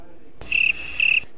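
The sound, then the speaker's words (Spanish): Crickets chirp in two short, high-pitched pulsing trills separated by a brief gap, rising clearly above a faint hiss. “Suenan los grillos.”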